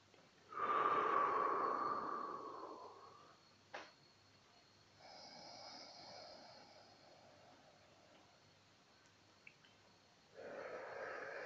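Deep breathing during guided meditation: a loud, long airy breath that slowly tapers away, then quieter, softer breaths. A final breath begins at the end, with no talking.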